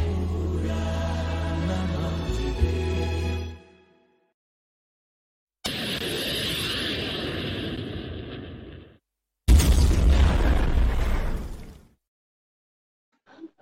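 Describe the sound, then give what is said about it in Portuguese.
Explosion sound effect: three loud, sustained rumbling blasts, each breaking off abruptly and separated by short silences. The third begins with a sharp, punchy onset. “Explodiu tudo, explodiu. Morreram todos.”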